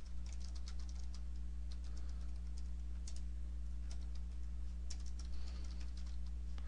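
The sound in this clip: Rapid typing on a computer keyboard while a query is entered, many light, uneven clicks running throughout at low volume over a steady low electrical hum.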